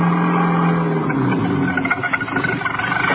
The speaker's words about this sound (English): He was driving more by instinct than anything else. He knew he was heading west.